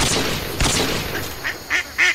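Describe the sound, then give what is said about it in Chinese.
Duck quacking: a grandmother's pet duck waddling about gives a few short, nasal quacks that grow louder toward the end, alone after a brief thud. “他看到奶奶心爱的鸭子摇摇摆摆地走着”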